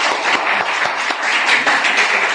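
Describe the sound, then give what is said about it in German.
An audience at a seminar applauds married couples with loud, continuous clapping. Dense, overlapping hand claps sustain evenly throughout the brief burst. “Dann darf ich einen von Ihnen zu mir bitten und ein herzliches Applaus für unsere Ehepartner.”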